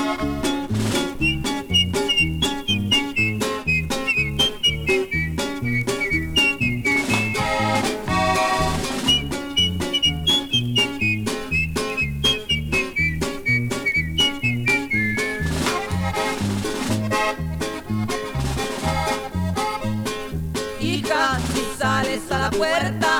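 Human whistling carries a bright melody above a steady, loud band accompaniment in a Mexican song, the whistled line sliding gently between notes in long phrases with no singing.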